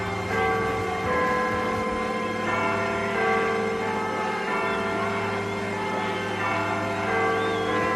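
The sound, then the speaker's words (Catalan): Church bells toll in the background of a rock song, blended into sustained instrumental chords that hold a fairly even, steady level throughout, with no talking. “i se senten unes campanades al fons”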